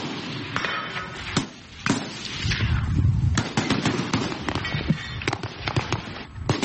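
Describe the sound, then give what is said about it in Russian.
Sharp cracks of SVD sniper rifle fire at a shooting range, many shots in irregular succession, some loud and others fainter, over a steady low rumble. “А еще стреляют? СВД. Снайпер.”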